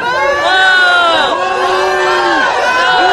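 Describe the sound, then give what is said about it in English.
A crowd at a Black Lives Matter event boos a woman, with many overlapping voices in loud, sustained jeering that wavers in pitch and continues throughout. “What you're hearing is a lot of booing because a white woman at a Black Lives Matter event that was held said all lives matter.”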